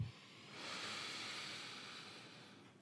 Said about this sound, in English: Let's start with a breathing exercise. Take a breath in and out. And in